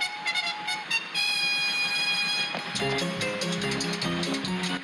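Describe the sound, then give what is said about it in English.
A steam train approaching a station, its whistle a sustained shrill tone with layered harmonics, later giving way to shifting stepped tones over a continuous rushing hiss. “There's a train coming.”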